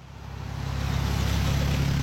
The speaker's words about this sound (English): Cars zoom past candidates and supporters as they wave signs and sip coffee in the rain at the Juneau-Douglas Bridge intersection Tuesday morning.